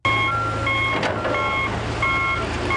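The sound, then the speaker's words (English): Reversing beeps sound from heavy machinery removing dirt during a mudslide search outside Guatemala City. A steady series of high, evenly spaced beeps plays over a low engine rumble. “the sound of heavy machinery removing dirt while searching for mudslide victims in an area outside Guatemala City”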